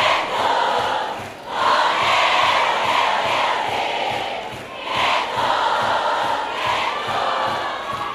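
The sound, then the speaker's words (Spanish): A live concert crowd cheers and chants at a platinum record presentation. The loud, sustained roar carries rhythmic chanting and briefly eases twice before surging back. “Yo quiero escuchar bien fuerte el aplauso.”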